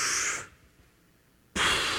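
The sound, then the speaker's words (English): An audience at a church gathering takes a big breath together as a group exercise. A loud breathy rush is followed by about a second of near silence, then another strong, sudden rush of breath. “You just took a really big breath. You should praise the Lord.”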